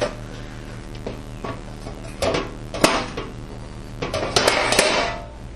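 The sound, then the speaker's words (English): An 8-inch non-stick cake pan is handled with light metallic clattering: scattered knocks and scrapes that grow louder and denser toward the end. “I'm going to use an 8-inch non-stick cake pan for this.”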